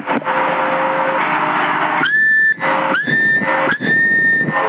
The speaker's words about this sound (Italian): Adesso senza premi la portante, dopo un po' fischia.